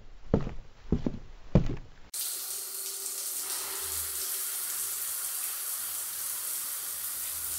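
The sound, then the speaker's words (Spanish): Showers run in a long communal bathroom: a steady, hissing rush of water starts abruptly and continues unbroken at an even level, following a few quieter, softer sounds at the start. “En el baño se escuchan las regaderas una tras otra.”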